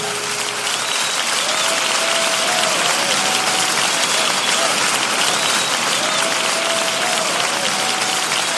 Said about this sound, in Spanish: Dele fuertes palmas al Señor, aleluya.